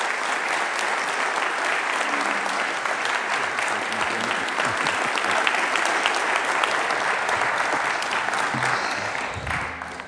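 A morning audience at a church-history lectureship applauds to welcome the lecturer to the platform. The clapping is dense and steady for about ten seconds and tapers off at the end.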